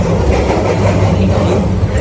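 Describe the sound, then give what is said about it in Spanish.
A subway train moving through an interchange station on Toronto's Line 1 and Line 2, heard as a loud, steady rumble of wheels and rail noise that holds its level throughout. “Y ahora aquí puedo hacer cambio a la línea 2 de color verde. Es una estación de intercambio.”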